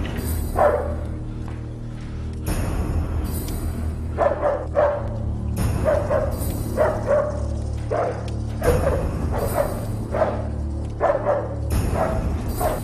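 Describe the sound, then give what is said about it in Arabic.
A dog set loose to attack barks loudly and repeatedly in clustered bursts over a steady low hum, the barks coming in quick runs with short gaps between them. “أطلق الكلب عليها.”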